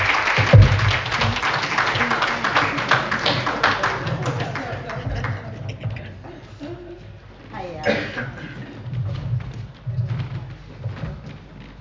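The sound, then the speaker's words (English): Audience applause welcoming a poet at a Guyanese-British poetry and storytelling event: dense, loud clapping at the start that gradually thins and fades, with voices mixed in. “Please put your hands together. Warm welcome.”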